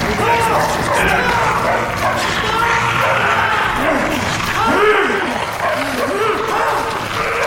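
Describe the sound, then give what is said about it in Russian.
Dogs barking amid busy background noise, with short bark bursts standing out in the second half while voices talk over much of it. “Собаки, точно собаки!”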